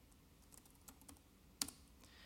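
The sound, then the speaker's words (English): Faint keystrokes tap out a name on a computer keyboard, a few scattered soft clicks followed by one sharper, louder clack near the end. “So I'm going to type in my name here.”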